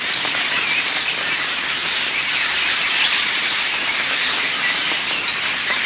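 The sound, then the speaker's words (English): A flock of starlings in Britain gives a dense, continuous chatter of many overlapping squeaks, clicks and whistles. It forms a steady, loud, bright wash with no voices. “That's the sound of a flock of starlings, some of Britain's most common birds, but whose numbers are declining.”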